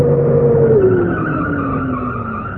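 Tires squeal as a car pulls up and skids: a sustained tonal screech that falls steadily in pitch over a low rumble of engine and road noise.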